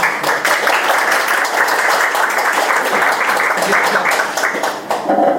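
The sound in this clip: Audience applause welcoming a speaker at a meeting about an upcoming election, a dense, even wash of clapping held at a steady level for about five seconds before it briefly dips.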